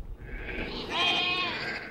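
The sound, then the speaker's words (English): Sheep bleating, a flock huddled together in the snow. A single faint, wavering bleat with a nasal tone rises over a low, steady background noise. “a flock of sheep are huddled together in the snow”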